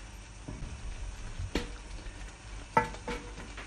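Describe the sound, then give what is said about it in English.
Raspberry preserve comes to the boil in a pan, a soft, steady bubbling hiss broken by a few brief louder pops and clinks. “Yeah, so it's coming to the boil. It's cooking nicely. It looks like it's starting to thicken actually”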